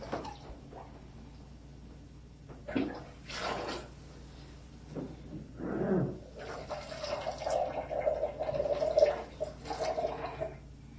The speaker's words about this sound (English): More water? That's called a pitcher, Nathaniel. Called a pitcher.